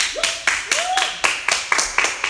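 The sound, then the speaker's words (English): Clapping for a woman named Shannon. A group claps in uneven, sharp bursts, one hit after another in a loose rhythm at a moderate, steady level. “Clap for Shannon.”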